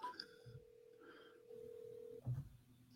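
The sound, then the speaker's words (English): A telephone call rings through a handset, faint and thin. A steady ringback tone holds for under a second, after a few brief higher tones, then ends with a short low thump. “Oh, got a full ring. Oh, is that two? Ooh, that's two.”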